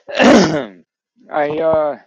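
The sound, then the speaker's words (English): A man clears his throat, trying to dislodge something stuck in it: two rough, voiced bursts separated by a short pause, the second longer and more tonal, fairly loud and alone. “Sorry, I got like something stuck in my throat, man.”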